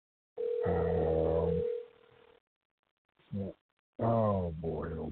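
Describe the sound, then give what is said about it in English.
Telephone dial tone holding steady for about two seconds with a voice over it, followed by a short burst of sound and then more talking. “Oh, boy. I just dialed the wrong number.”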